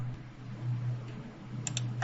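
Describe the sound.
Someone keys a card number on a computer keyboard, a few faint taps near the end over a steady low hum.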